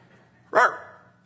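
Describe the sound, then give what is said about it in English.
A man imitates a dog with one short, loud bark that cuts in sharply and then trails off quickly over a quiet background. “I'm not a dog because I barked.”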